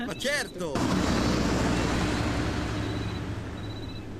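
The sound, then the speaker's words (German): Radio play effect of a car overtaking on a road to El Paso. A brief voice comes first, then a broad rushing vehicle roar surges in, holds steady, and eases slightly toward the end. “Wer überholt uns denn da wieder? Klar doch, Bolaños Kritiker, die sich offenbar vorgenommen haben, vor uns in El Paso anzukommen.”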